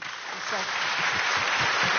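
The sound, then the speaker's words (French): A studio audience applauds to welcome a guest joining a discussion. The clapping swells in after a brief moment and holds as a steady wash, with voices talking over it. “Et Ludivine Isambourg vient de nous rejoindre. Et on peut l'applaudir, s'il vous plaît.”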